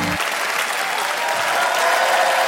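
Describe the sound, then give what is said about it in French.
Audience applause at a comedy show greets a stand-up comedian coming on stage. It is a continuous, dense clapping that grows slightly louder toward the end. “Préparez-vous maintenant à accueillir notre prochain artiste et faites du bruit où que vous soyez pour Yann Marguet.”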